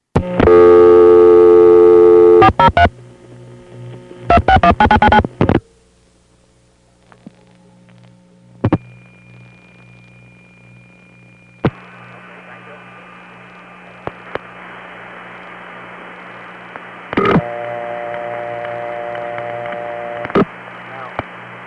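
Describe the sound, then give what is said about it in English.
Telephone line sounds from a tape of long-distance calls dialed to Alberta: loud tonal bursts, then near silence broken by clicks, a steady hum and hiss, and later another sustained tone. “I put it on the end of one of the long distance preservation tapes recorded from New York City. There was a little extra space on the end of the tape on which we had made calls to Alberta.”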